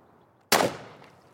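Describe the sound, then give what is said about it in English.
A single sharp gunshot as a gun fires pellets into a block of ballistic gelatin, a loud sudden blast followed by a quickly fading tail. “When I fired the last round, that was from 10 feet, there are discernible pellet wounds here, here, here.”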